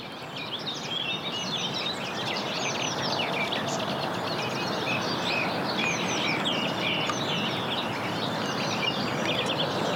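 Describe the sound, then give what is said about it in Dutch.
Birdsong from several birds, including a song thrush and common whitethroats, in a park on the edge of Amsterdam. Dense, overlapping high chirps, whistles and trills fill the whole clip at a steady, fairly strong level, with no talk. “Ik heb een heel ontvangstcomité van vogels. Van vogels, zeker. Ik hoor je zanglijster, geloof ik. Een beetje van alles. Er zitten grasmussen.”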